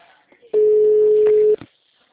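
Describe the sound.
A telephone ringback tone sounds while a call is placed: one steady, mid-pitched tone lasting about a second, loud and alone, with faint noise before and after.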